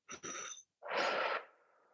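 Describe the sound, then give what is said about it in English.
Forceful exhale to empty the lungs, blown out through pursed lips as if blowing out candles: a short breathy puff, a brief pause, then a longer, strong rush of air that fades into a faint trailing breath. “I want you to pull your belly to your spine and exhale like you're blowing out candles with the intention of emptying yourself of everything that's inside you”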